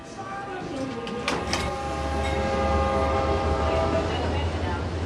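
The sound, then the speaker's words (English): A passing train at a station rumbles steadily, and a long sustained tone rings out over the rolling noise of the cars. “At the train station.”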